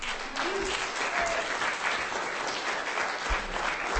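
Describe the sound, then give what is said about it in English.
Audience applause at a reading event: steady, moderate clapping that holds an even level throughout. “Jeff, ladies and gentlemen, give him a hand.”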